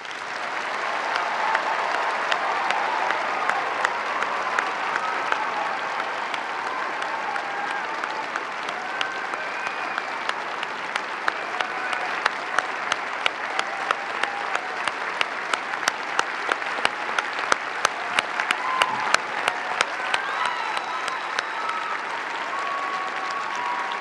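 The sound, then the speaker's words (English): Sustained applause from a presidential debate audience welcoming President Barack Obama and Governor Mitt Romney. A dense, steady wash of clapping fills the whole stretch, with sharper individual claps standing out in the later half. “The audience here in the hall has agreed to be polite and attentive, no cheering or booing or outbursts of any sort. We will set aside that agreement just this once to welcome President Barack Obama and Governor Mitt Romney.”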